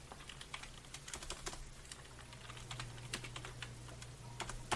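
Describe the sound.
Someone types a message on a computer keyboard, producing a quick, irregular patter of soft key clicks. The typing is fairly faint and sits over a low, steady hum, with no talk.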